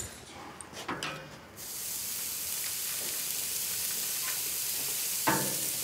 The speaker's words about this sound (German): Ich packe jetzt hier die Burger-Patties auf den Grill. Hoffe, die fallen mir nicht auseinander.